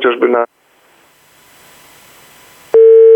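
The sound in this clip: A telephone tone cuts in after a dropped call with a police commander, loud, steady and level, following a short burst of speech and a stretch of faint line hiss.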